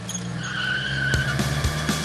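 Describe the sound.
Cars race off with skidding tyres, a sustained high tyre squeal over engine noise, broken by a few short bumps.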